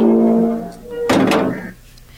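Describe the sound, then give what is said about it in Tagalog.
A gate being shut, heard as one short, harsh clattering burst that quickly fades. “Sige na, isara na ang gate.”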